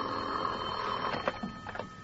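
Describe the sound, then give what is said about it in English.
A telephone rings by a bed, sounding a few bright, bell-like ring bursts over a faint steady hum. The rings are moderately loud and come in short pulses, with no voices. “I propped myself up in bed with a magazine and was almost asleep when my phone rang.”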